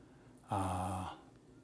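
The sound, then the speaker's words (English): A deliberate deep breath at the start of a guided breathing session, a single voiced, sighing exhale lasting about half a second and standing out clearly against a faint background. “we try to begin the session with taking 3 deep breaths.”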